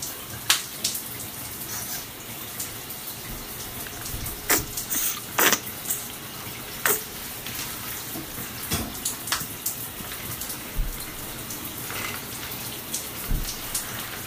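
Water runs steadily as someone's back is washed, a continuous hiss of flowing water broken by scattered splashes and drips throughout, with no voices.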